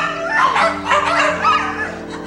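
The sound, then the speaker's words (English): Six dogs bark and yip as they race out into a garden, giving a busy run of overlapping high yips and whining cries that rise and fall without pause. “All six dogs race out into Martin's garden.”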